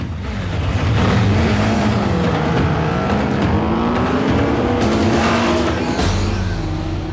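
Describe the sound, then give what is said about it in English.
Motorcycles rev loudly as a group of riders pulls away, their engines droning continuously while the pitch wavers up and down with the throttle. “Johnny and his crew get back on their bikes and drive off.”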